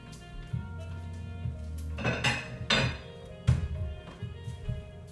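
Plate and utensils clattering as French toast is dished up, with a few short knocks, clinks and scrapes at irregular intervals.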